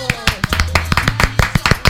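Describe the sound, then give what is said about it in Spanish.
Studio hosts clap their hands in real applause, many sharp, distinct claps in a quick, slightly uneven rhythm, loud and close, with a voice faintly underneath. “Estos son aplausos reales. Estos son reales. Porque nosotros no tenemos el efecto, así que los aplaudimos.”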